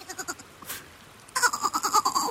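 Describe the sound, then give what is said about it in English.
A goat standing on a boat bleats loudly in a wavering, strongly harmonic cry that pulses rapidly and fills the second half, after a quieter stretch of soft rhythmic thumps. “On a boat stood a goat who was bleating loudly.”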